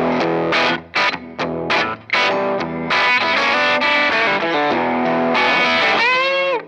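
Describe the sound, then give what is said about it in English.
Distorted electric guitar riff on a Gibson Government Series Flying V with hot, overwound Dirty Fingers Plus pickups: choppy, chugging chords at first, then sustained ringing notes ending in a wavering bend. “Yeah, I was just ripping. Yeah, that was pretty riffy. Yeah, I do like the sound of these pickups.”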